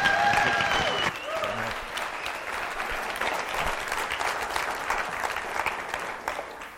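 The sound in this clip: A church audience in Montana applauds a guest speaker as he comes up to the pulpit. The clapping is steady and continuous, with many hands together, and it stays fairly even throughout.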